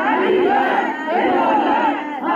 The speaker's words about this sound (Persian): همچنین خانواده‌های قربانیان این حادثه با در دست داشتن عکس قربانیان و شاخه های گل در فرودگاه امام فریاد دادخواهی سر دادند.